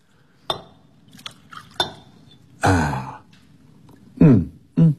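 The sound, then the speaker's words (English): Brandy poured from a bottle into a glass: a few sharp glass clinks come first, then a short burst of pouring, followed by brief breathy vocal sounds. “you'll find a bottle of brandy hidden away by Sir Isaac Newton. Certainly, Herr Inspector. May I pour you one? Indeed, you may.”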